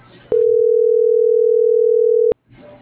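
A telephone line tone on an unanswered call: one steady, mid-pitched continuous tone lasting about two seconds, loud, with faint muffled noise before and after it.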